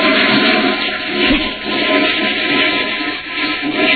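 A toilet flushes, water rushing down the plumbing in one continuous loud surge that swells and eases slightly over about four seconds, with no voices.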